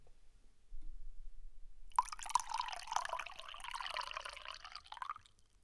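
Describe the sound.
Liquid pours from an opened jug, beginning with a couple of short clicks and then becoming a steady splashing stream for about three seconds before it stops. No one talks over it.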